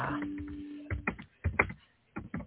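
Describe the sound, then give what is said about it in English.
Typing on a computer keyboard, heard as irregular clusters of soft key clicks separated by short pauses, fairly faint and with no talk. “I know you guys can hear me typing. I'm sorry.”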